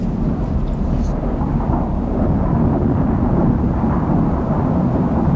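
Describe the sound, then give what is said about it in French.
A raging thunderstorm on a high mountain at night: a dense, loud, unbroken roar of low rumbling thunder mixed with rain, holding steady throughout with no distinct separate claps. “Et la tempête fait rage.”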